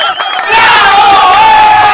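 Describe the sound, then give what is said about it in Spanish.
A crowd bursts into loud cheering and whooping after a quieter opening moment, with excited high voices shouting together and holding a sustained roar to the end. “Caramba, qué bien, un aplauso. Venga, pues, venga, la bulla para ellos.”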